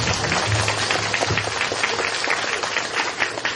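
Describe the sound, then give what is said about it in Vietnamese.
Applause from Buddhist devotees at a temple gathering, a dense, even wash of clapping that continues without a break from start to finish. “Vỗ tay đi.”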